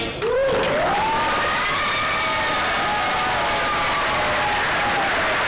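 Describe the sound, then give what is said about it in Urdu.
An audience applauds at the end of an environment-themed stage play by a visiting German troupe at an international theatre festival in Karachi. The clapping is dense, loud and continuous throughout, with some scattered cheering. “ماحول سے متعلق ڈرامے کے اختتام پر شائقین نے تالیوں کی گونج سے اپنے مہمان جرمن گروپ کی خوب پذیرائی کی۔”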